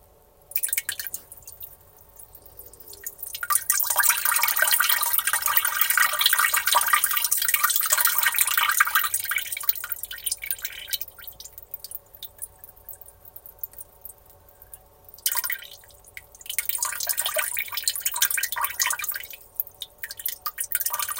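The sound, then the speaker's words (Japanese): Urine streams into a toilet, a steady splashing hiss that runs for several seconds, then breaks into a few shorter spurts and dribbles separated by quiet gaps. “ではおしっこしていきたいなと思います。”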